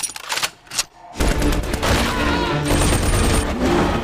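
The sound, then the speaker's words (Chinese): Heavy machine-gun fire in a film battle scene. A few sharp separate shots are followed by a sustained, loud roar of rapid automatic gunfire that continues to the end. “快跑，架好重机枪。”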